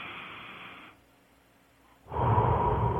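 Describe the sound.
Airy mouth exhalations during a guided deep-breathing exercise: one breath fades out after about a second, then a near-silent pause before a louder, rougher exhale.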